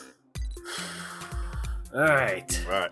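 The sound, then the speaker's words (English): A deep breath is drawn in with a sudden, sharp, gasp-like rush of air, followed by a few short voiced sounds. “All right. Deep breath.”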